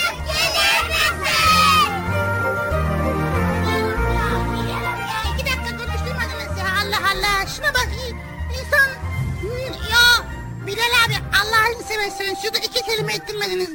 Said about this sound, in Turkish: Çocuklar biraz daha yüksek sesle bağıralım.